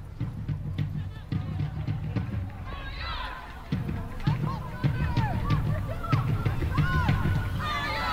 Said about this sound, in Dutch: En daar hoort u de fans op de achtergrond. Dezelfde mensen als afgelopen woensdag.